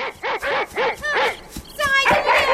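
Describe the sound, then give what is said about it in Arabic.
A dog barking in an animated story, a quick run of short, sharp barks in an even rhythm, followed by louder, more drawn-out vocal bursts toward the end. “انظر يا أبي، إنه كلب خالد يركض نحوه يريد أن يساعده.”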